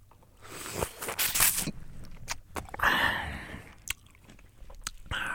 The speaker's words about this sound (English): That's the sound of eating a ripe peach.